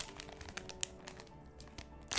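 Quiet crinkling of plastic packaging as a bag of Mingzhu brand fish slices is handled, ending in a sudden loud rip as it is torn open.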